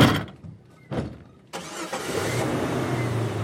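A white Jeep's engine starts: two short bursts of noise, then the engine catches with a sudden rise in loudness and keeps running with a steady mid-pitched hum.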